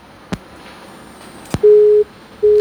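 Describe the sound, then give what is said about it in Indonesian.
Telephone tone after a dropped phone call: two short clicks, then two steady, loud, low-pitched beeps separated by a brief gap, with no voices. “Aduh, sayang sekali terputus. Dicoba ulang ya, silakan.”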